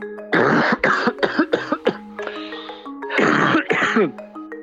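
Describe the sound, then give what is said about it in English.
Coughing from a person ill with coronavirus: harsh, throaty coughs in several bursts, with a long fit first, then a run of short hacks, a pause, and two more strong coughs. “That's the sound of coronavirus. It's the cough you get when you come down with it.”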